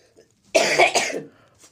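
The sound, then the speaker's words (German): A person gives a short, harsh cough, one dry burst lasting under a second, loud and alone against near silence. “Achtung, ich huste.”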